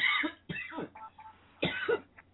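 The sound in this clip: A few harsh coughs in separate bursts, rough and throaty, mixed with throat clearing and short pauses between them.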